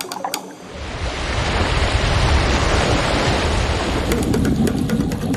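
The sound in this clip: Ocean tide waves wash over the shore in a steady, broad rush of surf. It swells in after a brief quieter start and stays loud throughout, with a few faint clicks near the end.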